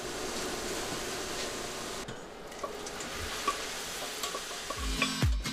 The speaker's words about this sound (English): The ground lamb is seared to bring out its flavor.